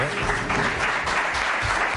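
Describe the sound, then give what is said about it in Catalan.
An audience at an event in a senior residence applauds. A dense, even patter of many hands clapping holds steady throughout. “Un aplaudiment, doncs, dels que ens acompanyen avui aquí.”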